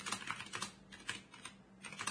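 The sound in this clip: Typing on a computer keyboard: a quick, irregular run of soft key clicks, fairly faint and with no voices.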